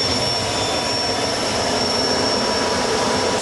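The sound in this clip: Helicopter engine: a loud, steady turbine roar with a thin high whine riding constantly on top, unbroken and unchanging for the whole stretch.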